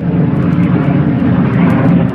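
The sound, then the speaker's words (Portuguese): An airplane flying above the clouds makes a steady, loud, roaring drone, a continuous broad rumble with no breaks or changes. “Um avião voa sobre as nuvens.”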